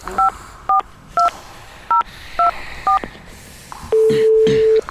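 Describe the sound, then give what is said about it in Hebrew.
A telephone is dialled to place a call: six short touch-tone beeps in an even rhythm, then one longer steady tone. “אתם רוצים להתקשר? אני אעשה את זה, כן.”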